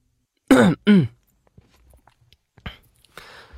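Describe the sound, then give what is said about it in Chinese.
A man's short cough in a dramatized scene of men seated around a table, heard as two quick voiced bursts. Faint rustles and soft knocks follow. “展昭咳嗽了一声”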